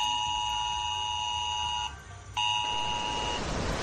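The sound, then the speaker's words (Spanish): An emergency mobile phone alert tone sounds for heavy rain in Los Alcázares, Murcia: a loud, steady electronic tone with bright overtones, broken once by a short gap, then resuming before cutting off into a noisy hiss near the end. “este aviso de S-Alert que lanza la Dirección General de Seguridad Ciudadana y Emergencias se ha activado en la zona de Los Alcázares, en Murcia”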